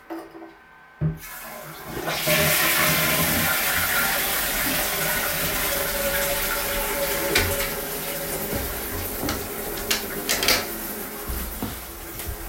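A toilet is flushed: a sharp click comes first, then a loud, broad rush of water that holds steady for many seconds, with a few small clunks and gurgles in it.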